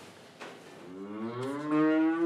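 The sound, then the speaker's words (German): A cow moos in a milking parlour: a single drawn-out, low, harmonic moo that rises slightly in pitch and then holds steady, growing louder toward the end. “So, Masi, kommst du melken? Samantha führe ich manchmal im Melkstand. Die ist einfach die Liebste.”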